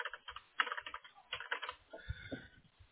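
Quick bursts of typing on a computer keyboard as an answer is written down, with rapid, light clicking keystrokes in short runs and brief pauses, faint and with no talk.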